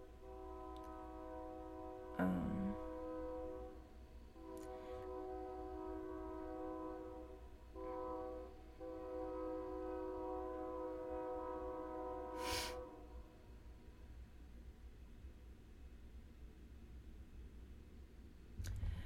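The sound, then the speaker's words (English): A train in the background sounds a faint, long, steady horn with a rich stack of tones, over a low continuous rail rumble with a few brief clicks and knocks. “That's a train. There's a train in the background.”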